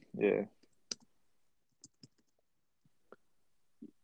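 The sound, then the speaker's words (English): Sharp, scattered clicks of a computer mouse and keyboard while someone searches online. A handful of isolated clicks follow a short burst of voice at the start, with quiet gaps between them. “What am I Googling? Just type in Big Daddy, go cast, click on him and look at the film.”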